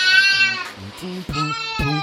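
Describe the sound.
Baby crying amid a neighborhood setting in Villa 31, heard as a few loud, high, wavering wails separated by short breaks.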